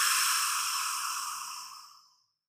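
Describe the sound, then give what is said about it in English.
A deep exhale at the start of a guided breathing exercise, a long, airy, breathy rush of air that gradually fades away over about two seconds, soft and alone. “We will now start by exhaling together.”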